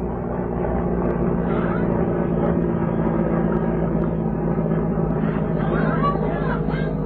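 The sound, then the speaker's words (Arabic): A military aircraft flying over El Geneina in West Darfur produces a steady, loud, low droning roar that holds constant throughout while people talk over it. “طيران ده يا جماعة الآن في الولايات، ولاية الجنينة داير أقصف.”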